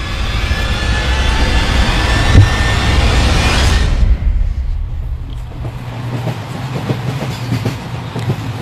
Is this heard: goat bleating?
no

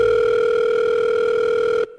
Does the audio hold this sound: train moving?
no

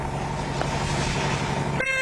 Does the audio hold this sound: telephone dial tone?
no

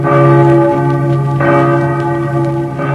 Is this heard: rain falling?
no

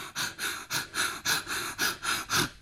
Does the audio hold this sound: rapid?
yes

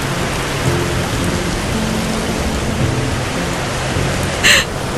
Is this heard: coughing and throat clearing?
no

